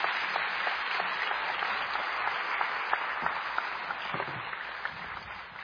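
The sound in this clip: An audience claps for a guest speaker who has just finished sharing. The applause is steady, dense and fairly faint, holding even before tapering slightly at the end.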